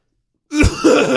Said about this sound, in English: Big Joe just clears his throat really aggressively for 30 seconds.